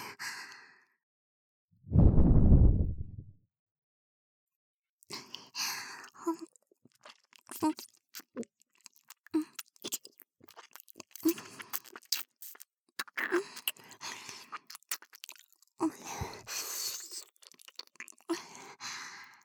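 Crunchy chewing and biting begin after a single heavy, breathy sigh, then run on as a long series of many crisp, irregular crunches at a low level.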